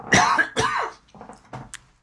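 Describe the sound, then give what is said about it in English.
A person coughs twice, two loud, harsh bursts close together, followed by a few quieter, shorter throat-clearing sounds before it fades. “Excuse me, I'm going to cough for a second.”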